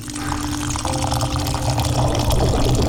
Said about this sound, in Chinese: 糯米由碱水浸泡。